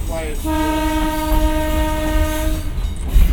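A loud train horn sounds at an unprotected road crossing: one long, steady, harmonic blast over the continuous rumble and clatter of the passing train.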